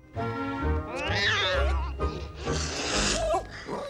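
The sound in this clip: A large white cat lying on a garden path gives two long, loud, drawn-out meows with wavering pitch, close to a yowl.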